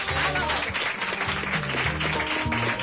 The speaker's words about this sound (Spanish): Ese aplauso para Pepu, por favor.